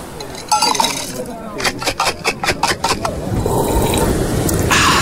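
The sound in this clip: Glasses clinking in a toast over mocktails: a quick run of bright, ringing clinks close together, then a steady background hiss.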